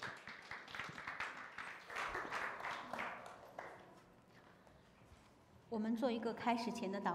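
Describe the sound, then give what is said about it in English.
A church audience applauds to welcome a pastor and a sister onto the stage. The clapping is steady and fairly loud for several seconds, then fades, and a voice begins. “Let us put our hands together to welcome Pastor Xiaowen and Sister Su Qi on stage.”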